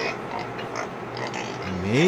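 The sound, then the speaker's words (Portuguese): Piglets squeal and grunt in a crowded pen. The noise builds to a louder rising squeal at the end, with people talking over the animals throughout. “Meu Deus do céu. O tanto de leitão ali, ó.”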